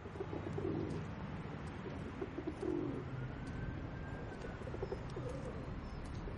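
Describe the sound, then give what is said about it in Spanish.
Soft cooing of a white dove held in a man's hands while he strokes it: a few low, murmuring coos over a steady background hiss. “Se acercan a un hombre negro de unos 50 años que acaricia una paloma blanca que sostiene entre las manos.”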